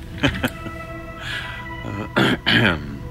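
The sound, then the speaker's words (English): A man clears his throat in a few rough, raspy bursts, with no other sound around them. “He awkwardly resituated himself and cleared his throat.”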